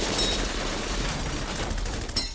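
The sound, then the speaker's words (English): A dense volley of gunfire as would-be assassins dressed as soldiers unload their weapons on a house in Mexico City, a loud, continuous roar of rapid shots blurring together without distinct gaps. “they unholster their weapons and unleash a volley of 200 bullets.”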